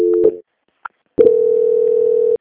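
Telephone line tones play during a call transfer: a steady electronic tone, a short silence and a brief blip, then a long, even, loud tone held to the end with no voices.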